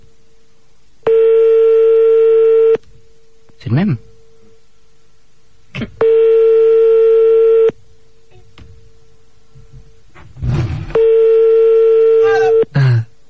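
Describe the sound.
Telephone ringback tone heard while calling someone back after they hung up: three long, steady, loud tones separated by pauses, with brief speech and noises between the rings.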